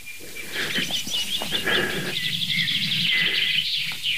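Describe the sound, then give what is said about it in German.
Calls of a red-backed shrike near a hedge: repeated high, thin chirps and short whistled notes that run fairly steadily throughout, with no voices. “Ja, fliegt. Der scannt gerade die Hecke ab. Der neun Töter.”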